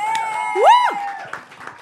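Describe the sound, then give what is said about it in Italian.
Audience applause and cheering at a comedy show, a loud rising-and-falling whoop from one voice riding over a softer bed of crowd clapping and noise. “Ma allora io questa sera vi chiederei innanzitutto un applauso, perché me lo merito, mi sono messa a dieta.”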